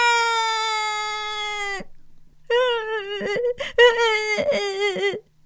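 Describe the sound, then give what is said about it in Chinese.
A voice imitates a child's loud crying scream: one long, sustained wail, a short break, then a second, wavering wail that breaks up into sobbing catches. “他发出了一个超级大的尖叫声。哇，”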